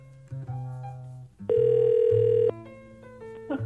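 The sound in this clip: A steady electronic telephone line tone sounds for about a second as a live on-air call to a listener is connected. It cuts in loudly over soft tonal background music and then drops away.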